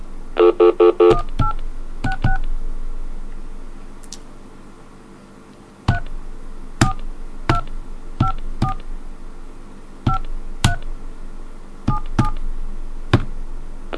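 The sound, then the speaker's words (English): Telephone keypad dialing tones: a quick burst of several beeps, then many more single tones pressed at irregular intervals, each short and clear over a quiet line hiss. “let's try that other number again with the second number.”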